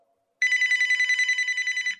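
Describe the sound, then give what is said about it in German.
Telephone bell ringing for an incoming call: one sustained burst of rapid, bright trilling that starts after a short silence and runs to the end, loud and alone. “wer ruft denn jetzt an? Wer ist denn das schon wieder?”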